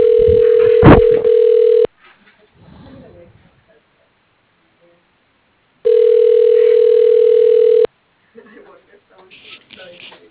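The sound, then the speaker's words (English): Telephone ringback tone during a call transfer: two long, steady, mid-pitched rings, each about two seconds, separated by several seconds of near silence with faint sounds between and after. “If you know your party's extension, you may dial it at any time. Please hold while I transfer your call.”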